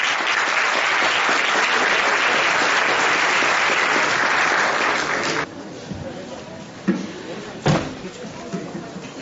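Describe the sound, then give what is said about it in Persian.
Audience applause after a theatre performance: a loud, dense wash of clapping that cuts off abruptly after about five seconds, followed by a few quieter bumps and knocks. “به افتخار خودتون دست باشید”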